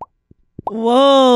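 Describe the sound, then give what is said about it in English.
A mouth imitates a bubble popping or water dripping off the corner of a house with a few short, hollow plops spaced apart. A sustained voiced tone follows right after. “It was either a bubble popping or water dripping off like the corner of a house.”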